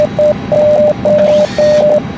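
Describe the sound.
Morse code tones spelling SOS: a single steady pitch keyed on and off, with short dots around three long dashes, clean and evenly spaced over a low background hum.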